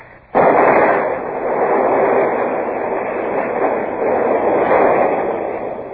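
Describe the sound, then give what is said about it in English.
A gunpowder magazine at a coastal gun battery is blown up as an audio drama effect. A sudden, heavy blast opens into a sustained, rumbling roar that surges and lingers for several seconds before easing slightly. “They've blown the magazine, sir. That's the end of the battery at Lanza.”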